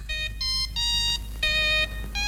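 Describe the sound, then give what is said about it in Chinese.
Opening jingle of a long-running Chinese children's radio program, a short, bright electronic-sounding tune of five sustained, harmonically rich notes at shifting pitches over a low steady hum. “就是70、80都会听到的那个小喇叭广播站的那个播音的那个板头，给大家再回顾一下哈，我们来听听看。”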